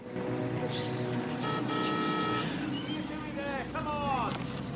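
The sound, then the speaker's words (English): Car engine on a narrow country road, a steady low rumbling drone with a whining harmonic layer that holds throughout without pause. “A car pulls up to her.”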